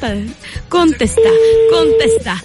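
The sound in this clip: Ringback tone of an outgoing telephone call. A short tone burst comes first, then a steady low electronic tone lasting about a second, with voices talking over the ringing.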